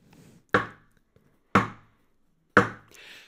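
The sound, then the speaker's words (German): Three sharp knocks for a Halloween trick-or-treat skit, evenly spaced about a second apart. Each is a crisp, woody thud that dies away quickly, and the knocks stand alone against near silence. “also ich mache dreimal Klopfen hier”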